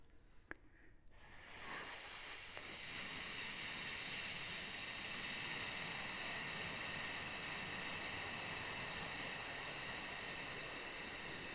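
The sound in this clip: Long breath pushed out through the lips as a sustained F in a breathing exercise, building quickly after a quiet start into a loud, steady hiss that holds for around ten seconds.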